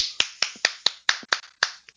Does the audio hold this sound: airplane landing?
no